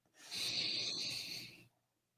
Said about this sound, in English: Let's do another one. Big deep breath.